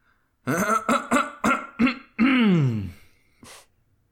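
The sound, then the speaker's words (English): A woman clears her throat at a lectern with five short, rough rasps in quick succession, then a longer drawn-out gravelly clearing and a brief final huff, fairly loud and without talk. “approaches the lectern and clears her throat.”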